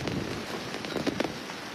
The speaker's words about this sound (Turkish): Yağmur şu an çok şiddetli bir şekilde yağıyor.